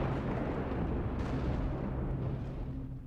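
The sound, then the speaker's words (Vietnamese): Thunder rumbles in a heavy, booming roar above a cemetery. The dense, continuous rumble holds steady for about three seconds and eases slightly at the end, with no voices. “Cùng lúc ấy trên tầng không, tiếng sấm đùng đùng vang lên, phụ họa cho tiếng hét của Đại.”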